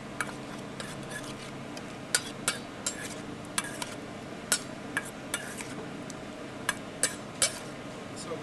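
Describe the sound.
Faint clinks and light taps of utensils tossing a salad with onions and olive oil, a scattered run of many small ticks over a quiet hiss.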